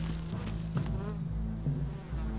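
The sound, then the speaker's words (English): Bees buzz steadily around a hive up in a tree, a continuous low droning hum that holds at an even level for the whole stretch, with no voices over it. “It's just bees. Maybe there's a hive.”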